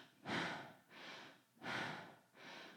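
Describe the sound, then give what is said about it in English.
Transformational breathing shown as deep belly breaths: four forceful, rushing breaths in a steady rhythm, with stronger and softer breaths alternating, and no talk. “So I'm certified in something called transformational breathing. From what I've heard, it's very much like holotropic, but I've never done holotropic, so I can't confirm that, but it sounds like this.”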